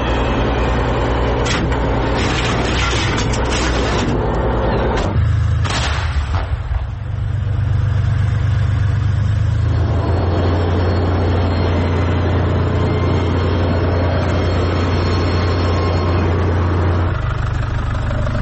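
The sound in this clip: Engine of a car driven fast on the way to a military unit's command post: a steady low rumble throughout, with a few clattering knocks in the first seconds and no talk.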